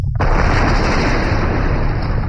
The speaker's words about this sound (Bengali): রাত দুপুরের পরে একটা বিরাট বিস্ফোরণের শব্দে ওদের তন্দ্রা ছুটে গেল।